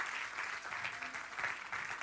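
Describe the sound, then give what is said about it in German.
Audience applause for church leaders and the leading pastor, a dense, steady wash of many hands clapping that holds at an even loudness throughout, with no voices heard over it. “Jetzt lass uns dir mal einen Applaus geben, come on.”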